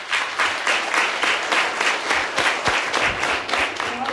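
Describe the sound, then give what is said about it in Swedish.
Audience applause at the Nordvåg revue, a sustained, dense clapping of many hands that stays loud and even from start to finish. “Så en applaus til alle dere i publikum.”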